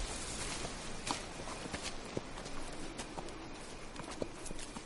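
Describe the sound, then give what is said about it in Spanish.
Donkey hooves clip-clop faintly as the animal is led on foot through a forest at dusk, the irregular steps barely rising above a steady hiss of background noise. “Al anochecer, él camina por el bosque tirando de un burro y alumbrándose con un farol.”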